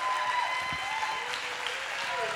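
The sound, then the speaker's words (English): Applause for the fathers in a church audience, a dense, steady patter of many hands clapping throughout, moderately loud, with faint voices mixed in. “Hey, give all the dads in this place a great round of applause.”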